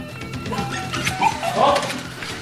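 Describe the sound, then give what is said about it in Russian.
A dog, Top from The Mysterious Island, barks a few short, sharp times over a steady noisy background. “Да, господи, раз собака нашлась, найдется и хозяин.”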